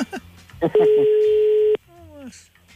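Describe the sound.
A telephone ringback tone sounds during an outgoing call: one steady, even electronic tone lasting about a second. People talk before and after it.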